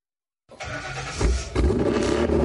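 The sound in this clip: A car engine cranks to life after a moment of silence and settles into a deep rumble, then revs hard twice in throaty surges. The car belongs to a private collection.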